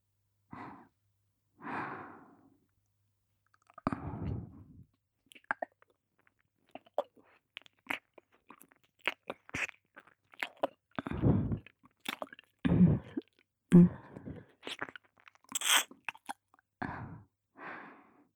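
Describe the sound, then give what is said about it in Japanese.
Ear-licking mouth sounds: soft, wet smacks, clicks and squishy licks come in many irregular bursts, mixed with faint breaths and quiet pauses between clusters. “それでは、耳舐めも合わせてご奉仕させていただきます。”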